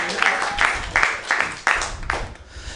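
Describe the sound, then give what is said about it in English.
Audience applause at a comedy show: a wash of clapping with several louder surges that rise and fall, fairly loud throughout. “Hey, big round of applause for everybody you've seen already, man.”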